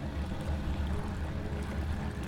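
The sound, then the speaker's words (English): Hot water bubbles in a massage spa as a steady, faint wash of hiss over a low churning rumble, unbroken from start to finish. “It's really nice. I can tell ya, a bubbly massage spa feels like absolute luxury, especially to someone who's almost always out at sea.”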